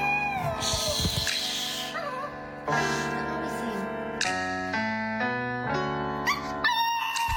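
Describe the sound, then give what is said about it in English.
A small dog howls and yowls along to a karaoke song, its wavering, pitched cries blending with loud sustained music throughout. “That's a dog, man. So that dog has, I guess, heard that song so many times. He's got it down. He knows when the singing is supposed to start.”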